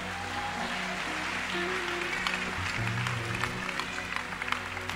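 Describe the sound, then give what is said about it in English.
Scattered, rather feeble clapping from a church audience on the first Sunday of the year, thin and uneven over sustained musical tones, with sparse claps growing slightly denser toward the end. “If only we could see how much banku you've eaten that you are clapping so weakly.”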